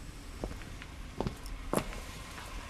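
Footsteps climbing stairs: a few soft, irregularly spaced treads, faint against a quiet background.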